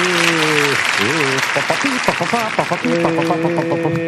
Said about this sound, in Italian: Applausi a scena aperta.